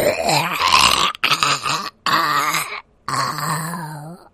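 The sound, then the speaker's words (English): A voice imitates a zombie's groan during a tabletop role-playing game: four long, low, gurgling moans separated by short breaks, loud and alone. “Well, that's creepy. That is gross zombie.”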